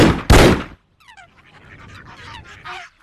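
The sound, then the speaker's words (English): Two pistol shots ring out in a duel, fired almost together: two loud, sharp bursts land in quick succession, then quieter sounds follow. “Both brothers raised their arms, took aim with their pistols and fired almost at the same time.”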